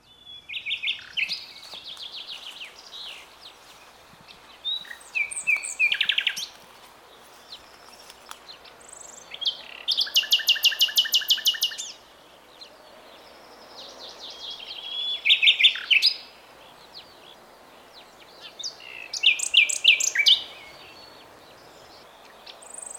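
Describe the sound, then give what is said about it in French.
Nightingale song rings out in several separate phrases of high, varied whistles, rapid trills and buzzy notes, each burst loud against quiet pauses. “Donc le chant du rossignol qui rappelle les après-midi bucoliques à la campagne.”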